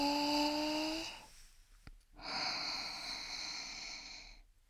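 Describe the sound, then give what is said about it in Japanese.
A deep breath in and then out: two long, airy breaths separated by a short pause, soft and steady, with no talking. “深呼吸してみましょうか。はーい、吸って”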